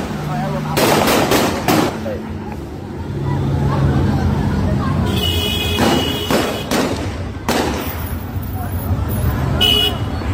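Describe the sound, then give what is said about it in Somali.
Gunfire from federal government soldiers' rifles in the streets and business areas of Mogadishu. Several clusters of sharp cracks stand out over continuous street noise, and voices are heard throughout. “magaalada Muqdisho ay askarta dawladda federaalka rasaas oo dooga qaadaan dadweyne ku sugan goobo ganacsi iyo wadooyinka qaar ee magaalada Muqdisho”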